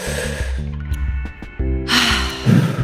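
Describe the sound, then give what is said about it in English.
A deep inhale and exhale as a calming breath. A broad, airy rush of breath swells loudly near the end, over a steady low tonal hum. “So we'll let it out together. So okay. Inhale.”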